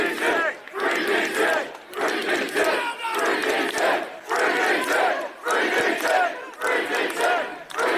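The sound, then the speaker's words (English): A crowd of demonstrators protesting an arrest outside a police centre, raising many rhythmic chants. Loud bursts of massed voices alternate with short pauses in a regular pattern. “That was the sound of demonstrators outside the police centre protesting the arrest of Daniel Thomas, better known as Danny Tomo.”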